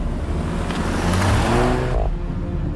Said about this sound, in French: des témoins ont entendu un coup de feu, puis, juste après, le moteur d'une voiture qui démarre